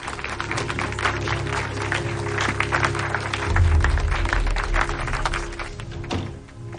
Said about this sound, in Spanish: Betty llega a la Asociación de Casos de Encarcelamientos Injustos, donde la aplauden.